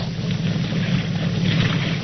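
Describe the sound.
A motorboat engine drones in a steady low hum beneath broad washing noise, an even, continuous rumble with no pauses and no voices.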